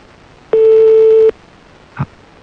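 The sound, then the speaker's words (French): A telephone ringback tone sounds once as a steady, pitched beep lasting under a second while a call rings toward an answering machine. A brief, quieter blip follows after a short pause, with no talk. “Bon, on va laisser sonner alors jusqu'à ce que ça tombe sur le répondeur.”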